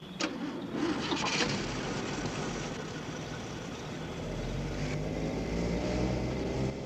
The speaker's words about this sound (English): Dusk falls as Moss and Blanche drive out of the dirt parking lot beside the rickety wooden chalets of their motel.